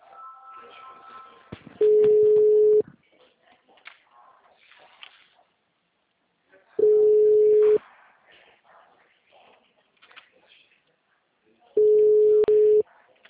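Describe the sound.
Ringing tone of an outgoing recorded phone call, heard as three steady, loud one-second tones at a low-mid pitch with long pauses between them. Faint murmuring and rustling fill the gaps.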